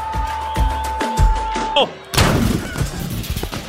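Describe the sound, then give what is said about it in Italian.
Gunshot sound effect in a comic sketch after a football commentary: voices, then a short lull broken by a single sharp, loud blast that trails into a rough, noisy rumble. “S'è sparato il cronista!”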